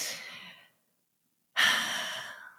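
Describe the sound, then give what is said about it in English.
A person takes a deep breath: a soft, airy breath fades out, then after a pause of about a second a louder, longer breath rushes in with a breathy hiss. There is no talking. “I take deep breath because I feel there's such a level of responsibility that comes with speaking of this medicine.”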